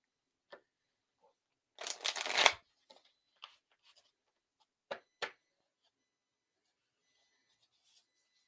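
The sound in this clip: Tarot cards shuffled in one short riffling burst, with a single soft click just before it and a few crisp separate snaps afterward as cards are drawn and laid down, quiet with silence in between.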